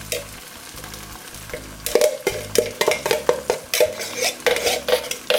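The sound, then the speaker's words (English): Drained canned beans, from a can whose lid would not come fully off, are tipped into a cooking pot. Many soft thuds and clattering scrapes sound over a steady sizzle, with a low hum underneath. “We're gonna put in, this is the can of drained beans. I can't get the lid all the way off.”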